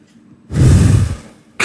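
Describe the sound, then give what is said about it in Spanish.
Heavy breathing: one long, loud, rushing breath lasting just under a second, followed by a brief pause and the sharp start of another breath. “Pura respiración.”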